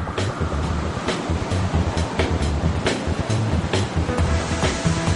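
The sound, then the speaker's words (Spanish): Giant steel rails roll up and down over rollers on a rolling-mill floor. The heavy metallic rumbling is loud and continuous, and sharp clanks recur every so often on top of it. “Ya en el suelo de la planta los raíles gigantes se mueven arriba y abajo sobre los rodillos al menos 16 veces.”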